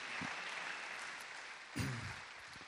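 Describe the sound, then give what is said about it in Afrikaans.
Faint, steady applause for a church band, a soft continuous patter of many hands at low volume throughout. “Kom ons gee vir hulle 'n lekker applous.”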